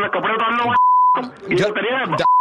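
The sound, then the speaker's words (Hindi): A phone line's disconnect beep after a hang-up, a steady high electronic tone sounding in the gap between bursts of a man talking and again at the very end. “Hello hello hello भाई साहब आपने phone काट दिया यार”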